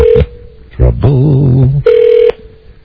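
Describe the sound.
Ringback tone of an outgoing telephone call: a steady mid-pitched tone sounds twice, the first cut off at the start, with a brief voice heard between the two rings.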